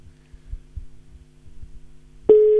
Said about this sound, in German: Da, auch Freizeichen.